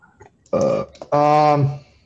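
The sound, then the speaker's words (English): Two burps from a man, a short croaky one followed by a longer, louder, resonant one, each a throaty voiced belch with a brief gap between them and no talking over them. “I feel like that's the second time I've burped at the end of a podcast.”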